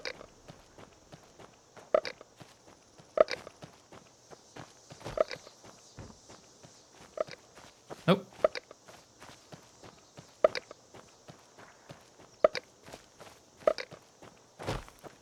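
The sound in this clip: Video game footsteps of a walking character, many light, sharp taps at an uneven pace over a faint background hum.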